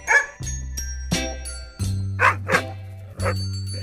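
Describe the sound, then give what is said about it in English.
A dog barks several times in short, sharp bursts at uneven intervals during obedience training, each bark standing out loudly over sustained musical tones in the background. “Stay, naughty dog. That's okay. He won't hurt you.”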